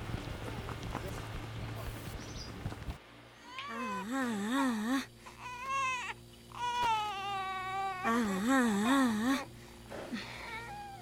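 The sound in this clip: A baby cries in wavering, sobbing bouts, a few loud wails separated by short pauses, while someone tries to calm it. A stretch of steady noise comes before the first cry.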